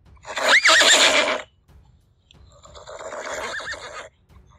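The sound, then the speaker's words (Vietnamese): A mare neighs as she rears up on her hind legs on grass. Two whinnies are heard: the first is loud and shrill with a wavering pitch, and the second is longer and quieter. A low rumble runs underneath. “Bà mã dưới người hắn đột nhiên dừng lại, chân trước chồm lên không, gần như thành một góc 90 độ so với mặt cỏ. Cất tiếng hí như không dứt”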